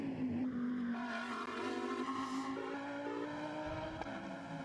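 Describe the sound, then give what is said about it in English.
A Lamborghini race car runs through turn six and down a hill on a racing circuit during qualifying, a fairly faint, continuous high engine drone with a few stepped shifts in pitch and no talk. “Lamborghini coming down the far side of the circuit at the moment, turning through turn six, dropping down the hill.”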